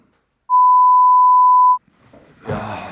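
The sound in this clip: A censor beep: a single steady pure tone lasting just over a second, starting abruptly after near silence. Quiet talk follows and grows louder.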